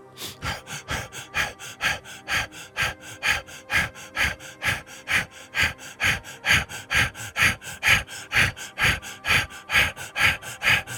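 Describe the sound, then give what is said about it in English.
Rhythmic breathing in and out during a guided breathing exercise, heard as a fast, even train of many sharp, airy breaths that pulse steadily throughout with no talk. “Release the breath. Again, breathe in and out.”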